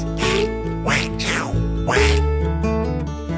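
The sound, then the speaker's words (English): A voice imitates a duck's quack with a few nasal, honking calls. They are loud, with short pauses between them. “Then, not far behind her, was our duck. That's right, he came waddling in from the living room. Duck looked right at me, he said,”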